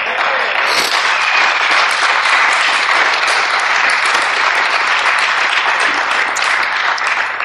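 Sustained audience applause at an Alcoholics Anonymous meeting, a dense, loud wash of many hands clapping that stays even and unbroken for several seconds.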